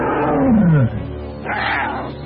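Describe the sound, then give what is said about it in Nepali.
Several tigers roaring: a loud, deep, growling roar slides downward in pitch, then after a brief lull a second rougher roar rises up. “एउटा बाघ होइन तर धेरै बाघहरू।”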